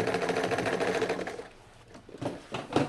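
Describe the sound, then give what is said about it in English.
A sewing machine stitching painted canvas pieces onto larger canvases runs in a fast, rhythmic whir for over a second, then stops, followed by a few faint clicks and handling noises. “Those pieces are painted and then sewn on to larger canvases.”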